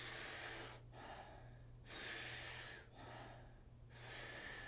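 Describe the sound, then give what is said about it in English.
Rhythmic breathwork while lying on the back: powerful, rushing breaths drawn in through the mouth alternate with softer, relaxed exhales. The pattern swells and fades in a steady cycle, faint and without talk. “taking about 40 powerful breaths into the body through the mouth. The exhale is a nice, soft, relaxing exhale. We do it rhythmically. We do it together. It sounds like this.”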